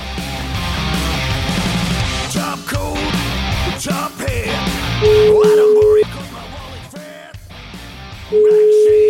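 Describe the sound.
A telephone ringback tone while calling someone: two steady, even beeps of about one second each at a mid pitch, separated by a pause, following a stretch of talk.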